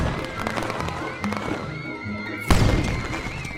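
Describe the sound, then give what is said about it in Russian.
A firecracker bursting as children light and throw firecrackers in a film scene: one sharp, loud crack partway through, over a busy, tonal background. “Смотрите, петарду! Поджигайте, детишки! Дети нашли петарду. Они их поджигают и бросают в сторону.”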